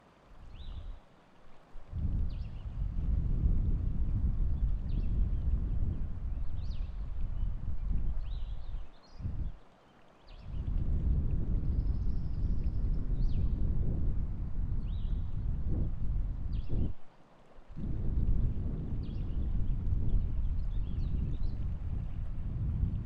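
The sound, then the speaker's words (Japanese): Breath blown into the ears from both sides, close to the microphone, makes long, rushing, wind-like gusts. A few sustained blows are separated by brief pauses, with some fainter breathy bursts in between. “じゃあ両側から耳に息を吹きかけていきますね。”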